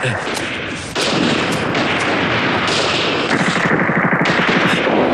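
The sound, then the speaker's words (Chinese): Gunfire outside crackles in dense, rapid machine-gun bursts that go on without a break, loud and harsh throughout. “这外头怎么打枪了？”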